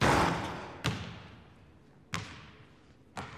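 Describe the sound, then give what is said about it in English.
A missed basketball shot in a gym: the ball bounces with four booming thuds, each with a ringing decay, spaced roughly a second apart and growing fainter. “Kyle takes a shot and misses.”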